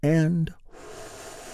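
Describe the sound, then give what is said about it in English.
A slow, deep breath drawn in together during a guided relaxation exercise: a soft, airy hiss lasting about a second, following a brief voiced sound. “Let's take a big, deep healing breath all together. Here we go.”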